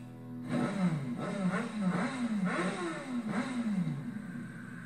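A Ducati motorcycle engine revs through a few swells that climb and drop in pitch, a steady mid-range growl carrying throughout.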